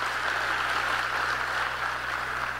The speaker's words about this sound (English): Clap it up for that.